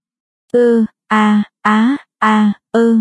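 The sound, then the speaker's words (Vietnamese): Five short moans from a small room beside an office, evenly spaced and each about a third of a second long. They are voiced and tonal, with no other sound between them. “Tiếng rên nho nhỏ phát ra từ căn phòng nhỏ cạnh văn phòng.”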